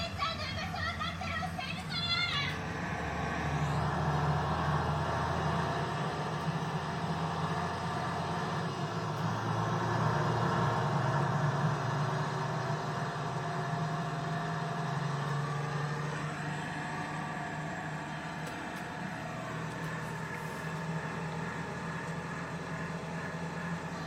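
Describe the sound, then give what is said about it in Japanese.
A truck engine rumbles, a steady low drone with a gritty, churning texture that holds for the whole stretch and swells slightly midway, with no clear breaks. “トラックの車がこうギュルギュルギュルっていうだけで”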